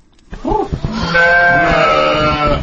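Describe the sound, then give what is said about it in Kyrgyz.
Sheep bleat in a village livestock yard where sheep and horses are kept, with a few short wavering calls followed by a loud, long, sustained bleat. “Биз азыр Базар Коргон районундагы Коткор кыштоосундагы мал, кой, жылкы багып жүргөн Улан Тургунбаев аттуу жигиттин короосуна келдик.”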